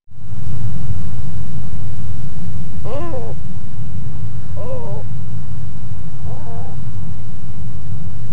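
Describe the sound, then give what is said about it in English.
Black-crowned Night Heron calling, three harsh, croaking barks spaced about two seconds apart, each short and ragged, standing out over a loud, steady low rumble of background noise. “Black-crowned Night Heron.”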